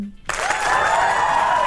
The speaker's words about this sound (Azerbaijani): alqışlar.